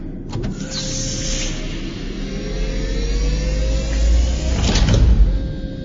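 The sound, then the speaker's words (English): Motorized whir and hiss of an airlock inner hatch opening on a space shuttle: a steady mechanical hum with a slowly rising tone builds in loudness, then swells into a brief louder whoosh near the end. “Outer hatch closed. Shuttle umbilical is deployed. Airlock pressure is currently equalized the airlock is empty. Open the inner hatch.”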